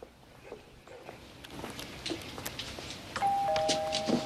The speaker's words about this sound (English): Jay and McCaleb walk up a front path and ring on a doorbell.